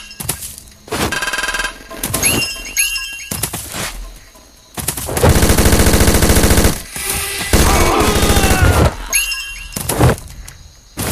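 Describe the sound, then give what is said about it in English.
Loud rapid automatic gunfire in a video game, fired in many bursts of different lengths with sharp cracks and a long sustained burst in the middle, separated by brief gaps. “You waste a lot of ammo, so I'm kinda glad there isn't an ammo system in this game.”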